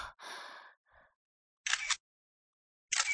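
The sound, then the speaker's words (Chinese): A camera shutter clicks twice, each click a short, crisp burst with a stretch of silence between them. The clicks follow a breathy sigh at the start. “听到快门按下的声音，我转头过去，慌乱地想要阻止”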